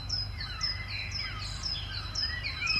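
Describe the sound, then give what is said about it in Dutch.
Great tit song in an early-morning garden, its bright two-note phrase repeated many times in a quick rhythm, with distant gulls calling faintly underneath. “De koolmees doet ook stevig mee. In de verte meeuwen. Volgens mij hoor ik nog ergens een verdwaalde duif. En de schoolekster.”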